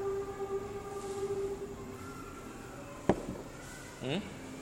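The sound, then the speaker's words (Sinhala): A train passes with a steady low rumble and sustained tonal hum, broken by one sharp clack midway and a brief rising squeal near the end. “දැන් අර කෝච්චියක් යනවා නේ නේද?”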